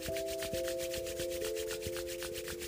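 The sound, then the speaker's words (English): Palms rubbing together strongly give many quick, even, swishing strokes in a steady back-and-forth rhythm. A faint sustained hum runs underneath throughout. “Now bring your hands together and rub the palms together nice and strongly.”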